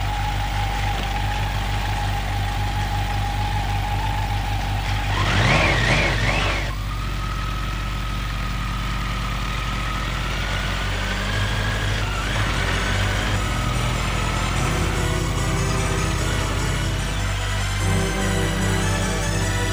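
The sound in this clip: Car engine driving off: a steady low rumble with a brief louder surge early on, then a continuing drone with a slight whine as it drives on, with no talking.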